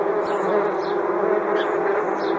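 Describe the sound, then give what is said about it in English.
Angry hornets buzz inside a hotel room, a dense, steady droning hum that holds loud and unbroken for the whole stretch, with no voices. “There's bees, big old hornets in my room.”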